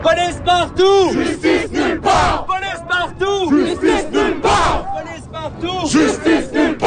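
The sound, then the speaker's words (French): A protest crowd chants a slogan in French at an evening street demonstration in Montreal, in front of a police station. The loud, rhythmic two-part call is repeated three times, with the massed voices rising and falling in unison. “Ce que vous entendez, c'est ce qui s'est passé hier soir dans les rues de Montréal, un rassemblement, une manifestation.”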